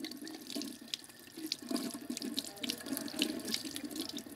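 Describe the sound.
Faint running tap water splashing into a sink while ornamental gourds are washed at a nursery before being cleaned and sorted; a quiet, steady trickle with small uneven splashes throughout.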